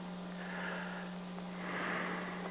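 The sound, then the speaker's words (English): A deep breath taken in during a guided prayer, heard as two soft, airy swells over a steady low electrical hum, with no talk. “To just take a deep breath, please, with me.”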